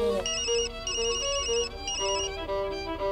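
A telephone ringtone sounds alone at steady volume, a bright electronic melody of repeating chiming tones.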